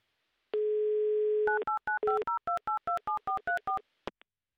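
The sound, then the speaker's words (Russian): Telephone tones for an outgoing call: a steady low dial tone, then a quick run of about a dozen short two-note keypad beeps, ending with a brief click. “И если вы себя узнали, то прямо сейчас мы будем звонить вам. Возьмите, пожалуйста, трубку и не включайте ни в коем случае автоподсказчика.”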